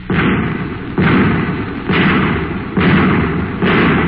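Five heavy booming blasts sound as anti-tank shells are fired, in a sound effect. The loud shots come evenly spaced about a second apart, each followed by a sustained rumbling roar.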